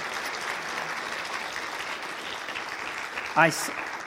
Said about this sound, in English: And give them a big hand clap.